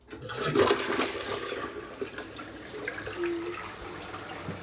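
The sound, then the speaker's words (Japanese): A toilet flushes with a loud rush of water that swells early, then tapers into a softer, steady gurgle of draining and refilling. “じゃあちょっととりあえず流しますね。”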